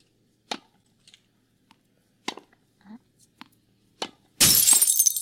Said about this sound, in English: I hope they weren't too mad that you broke their window.